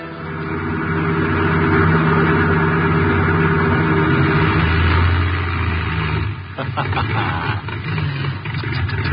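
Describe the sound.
A car engine running out of gas: a steady, loud droning run that suddenly falters, then sputters and coughs unevenly for the last few seconds.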